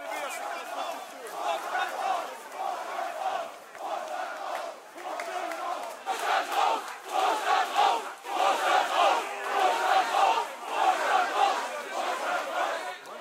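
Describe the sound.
An angry crowd chants in rhythmic unison for the board to resign, repeating shouted phrases in a steady pulsing pattern that grows louder partway through.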